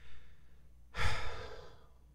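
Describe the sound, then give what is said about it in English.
An audience exhales together during a church prayer: one long breathy rush that swells quickly and fades over about a second, with no talk. “let's bow our heads together, take a moment, and exhale”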